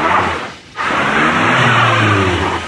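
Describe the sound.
A car engine accelerating as the driver eases onto the gas, a steady loud roar that briefly dips and then holds, with a low engine tone climbing in pitch partway through.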